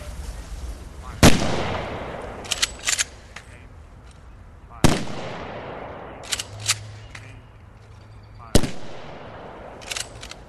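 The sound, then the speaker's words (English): A military firing party fires three rifle volleys, evenly spaced several seconds apart. Each volley is a sharp, loud crack with a fading tail, and fainter metallic clicks sound between them. “Firing party, prepare to fire three volleys.”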